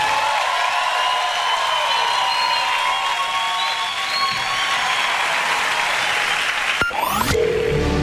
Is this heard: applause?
yes